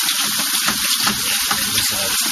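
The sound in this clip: Water is poured out as a unit is emptied and refilled for rinsing, making a continuous, even gushing splash at steady loudness with no voices.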